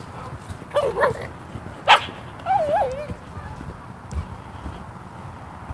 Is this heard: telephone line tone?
no